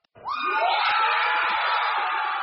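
A crowd of Apple store employees in Towson, Maryland, cheering after unionizing: sudden, loud shouting and whooping that bursts out at once and holds at a steady, bright roar to the end.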